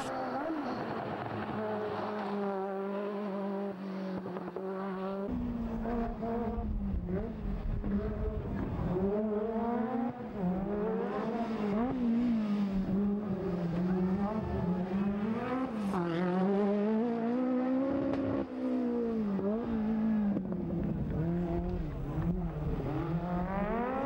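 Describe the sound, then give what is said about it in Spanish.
The engine of a Peugeot 205 Turbo 16 rally car drives past with a loud, continuous, buzzy roar. Its pitch repeatedly rises and dips as it revs and shifts through the gears. “El Peugeot 205 Turbo 16. Quizás el Peugeot 205 más especial de todos los tiempos.”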